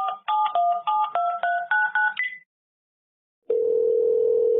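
Touch-tone keys beep in a quick series as a telephone number is dialled to call a listener. A short silence follows, then a steady, even line tone that holds to the end.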